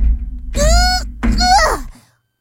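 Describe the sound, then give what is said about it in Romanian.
Someone pushes against a jammed hatch that will not open, making dull low thumps. There are two efforts, each with a strained groaning voice, and then silence. “Ia să deschid trapa și să ies repede afară. Nu pot să o deschid.”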